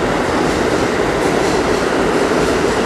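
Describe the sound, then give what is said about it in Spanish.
A train passes through a station without stopping, a dense, loud, continuous roar of rail noise with a constant broad rumble and hiss throughout, no pauses and no voices. “Esto es un tren que está pasando de largo en la estación”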